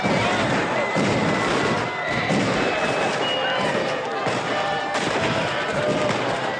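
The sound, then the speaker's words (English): New Year bangers go off on the ground while men fire guns into the air at a street party around a bonfire, with loud sharp bursts and thuds cracking over a constant noisy crowd background. “Bangers go off on the ground, and men shoot into the air.”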